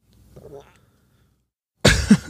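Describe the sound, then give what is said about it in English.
A short, harsh throat noise, a rough cough-like burst that comes near the end after a faint murmur. “That was a throat noise.”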